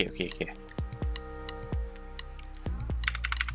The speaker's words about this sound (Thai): แล้วก็คอนโทรลเซฟไปครับกดรัน